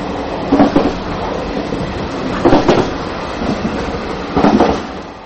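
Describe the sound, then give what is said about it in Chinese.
Train wheels clack rhythmically over rail joints on a narrow-gauge Taiwan railway line without continuous welded rail. Loud clusters of clacks recur about every two seconds over a steady rolling rumble. “车轮和铁轨接缝产生的有节奏声响对很多人已经久违”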